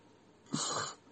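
A yawn, a breathy exhale swelling briefly and then fading after about half a second, soft and alone.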